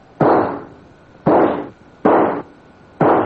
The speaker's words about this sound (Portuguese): puxou o revólver e atirou nele 4 vezes a queima-roupa.